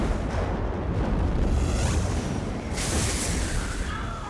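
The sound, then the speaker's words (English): Fiery explosions from a huge mechanical flame-ball effect in a film set on the streets of Cairo: a dense, continuous rumbling roar with a fresh burst partway through, loud throughout. “This, of course, is a huge mechanical effect. We uh, had a blimp above Cairo and shot thousands and thousands of these uh, flame balls all over the streets.”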